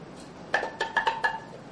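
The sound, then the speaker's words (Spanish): A child bangs a cooking pot while lying in a bunk bed: a quick, irregular series of several faint metallic clangs with bright ringing tones. “En su litera Josué golpea una cacerola.”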